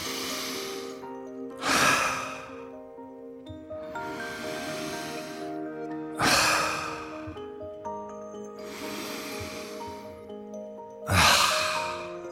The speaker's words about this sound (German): du musst halt durch die Nase ganz tief einatmen und dann durch den Mund aus. Und dann musst du halt das dreimal machen.